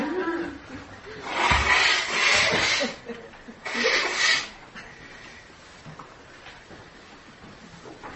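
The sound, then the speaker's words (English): Loud nose blowing into a tissue, two forceful, noisy honks, the first longer and the second shorter, followed by quieter rustling. “I'm just going to blow my nose loudly over here just for 1 second.”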